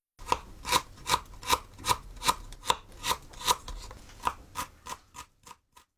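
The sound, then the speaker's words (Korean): Knife finely chopping peeled ginger on a board: many crisp, evenly spaced strokes in a steady rhythm, loud and clear with no talk. “먼저 생강 껍질을 벗겨 잘게 씁니다.”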